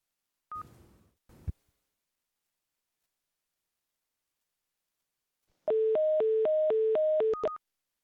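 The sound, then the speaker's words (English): A telephone number is dialed, with a couple of brief clicks first and then, after a pause, a quick run of steady electronic beeps that alternate between two pitches. “I'll just note as we dial her number”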